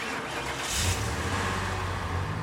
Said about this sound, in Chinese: 男人载着李莎很快地发动了车子，渐渐驶离市区。